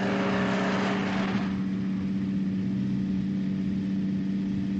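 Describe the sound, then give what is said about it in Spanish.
A bus travelling along the road gives a steady, low engine drone throughout. A brighter hiss in the first second and a half fades away, leaving the even rumble. “El autobús sigue su camino.”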